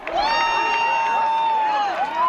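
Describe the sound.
A crowd of nearly a thousand people cheering at a total solar eclipse on an open agricultural field in Segovia, Spain, led by one long sustained high shout that dips and rises near the end over a bed of cheering voices.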